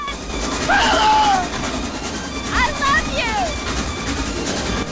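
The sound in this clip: A train rumbles along its rails with a low, continuous clatter beneath loud, excited voices that shout over it.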